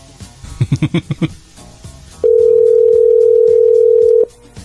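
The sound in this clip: Telephone dialing and ringing tone on a call that sounds like one placed abroad: a quick run of dialing beeps, a short pause, then one long, steady, unbroken ring tone that holds for about two seconds before stopping.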